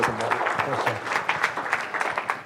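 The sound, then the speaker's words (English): Audience applause for a guest: dense, steady clapping that holds for the whole stretch, with some voices mixed into the crowd noise. “So let's give him another round of applause.”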